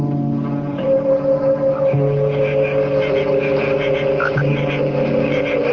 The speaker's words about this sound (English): Then start the engine and turn the car around.